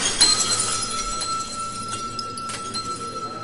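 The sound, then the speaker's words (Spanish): Glass clinks and rings after a glass is thrown to the floor, with a few sharp bright clinks over sustained high ringing tones. “un alumno se levantó, miró al maestro y a los demás discípulos, caminó hacia el vaso con determinación y lo tiró al suelo.”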